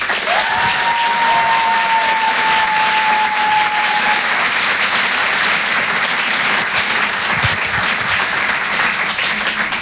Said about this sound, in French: Je vous demande de l'encourager. Faites du bruit, s'il vous plaît, pour son tout premier passage sur Rire et Chanson, Simon Pinto.